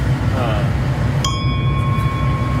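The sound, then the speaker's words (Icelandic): A ship's bell is struck once, giving a bright metallic clang that rings on in steady, sustained tones over a loud rumbling background. “Hérna er bjalla, tilfæðu sér hún útis. Það er skipsbjalla”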